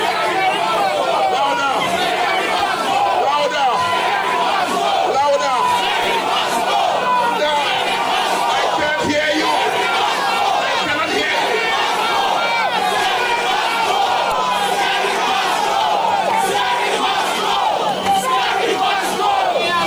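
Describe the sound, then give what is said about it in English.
Protest crowd in a Dominica street, shouting and chanting together in a dense, loud, unbroken roar of many voices that lasts the whole stretch with no quiet gaps. “We have a right to come in the streets and to hold our placards up and to shout and to chant. Let's chant now. Let's shout and we chant. Scary must go. Let's go. Let's go. Louder.”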